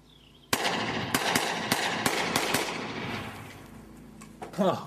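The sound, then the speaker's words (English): Six sharp 9mm pistol gunshots fired at a blue couch under a bridge. The loud cracks come in an uneven run over about two seconds, followed by a lull and a voice exclaiming near the end. “blow up the couch to the best of my 9mm abilities. So let's see what we can do. In the video, he's under a bridge and firing at a blue couch.”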